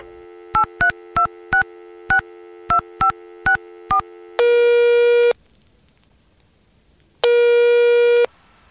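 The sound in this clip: Telephone voicemail tones: nine short, evenly spaced dialing beeps, then a long steady tone, a silent pause, and a second long tone.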